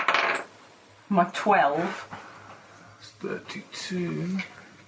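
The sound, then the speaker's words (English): Dice clatter across a table during a Dungeons & Dragons session, one of them a 30th-anniversary D&D die. A sharp rattling burst comes first, then voices talk, with a few lighter clicks between them. “Somebody else roll a dice. It's not that one. No, I'll take this dice.”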